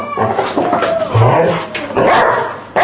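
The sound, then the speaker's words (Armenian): A dog barks on command, giving a few sharp, loud barks mixed with higher whimpering yips in an uneven rhythm. “Իսկ երեք հատ։ Երեք հատ է, բուս, երեք հատ հաչա։”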